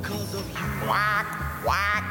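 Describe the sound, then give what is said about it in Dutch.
Duck quacking: two loud, nasal quacks with a wavering, harmonic tone, the first near the middle and the second toward the end, over a steady low background sound. “Quack, quack.”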